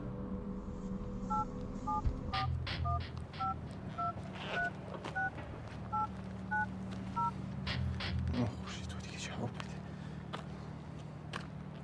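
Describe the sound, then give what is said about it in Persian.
A phone number is dialed on a mobile phone, producing touch-tone keypad beeps: many short paired tones in a quick, even string over a low background rumble and a few faint thuds. “ندارم تو این گوشی یکی دیگر رو بگیر یا به کی بلدی زنگ بزن”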